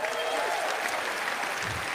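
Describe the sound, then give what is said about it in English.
An audience at the ESPYs sports awards show claps steadily and densely throughout, a continuous wash of applause with a voice faintly audible over it at the start. “I'm joking around. That's my friend's wife. I knew none of you knew WNBA players. That's crazy. You clap for that.”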